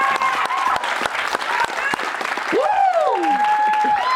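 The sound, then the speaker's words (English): A studio audience at a BYU athletics show cheers and applauds loudly on return from a commercial break. Sharp whistles rise and sweep over the dense, continuous clapping. “Somehow the audience level coming back from breaks is remarkable tonight.”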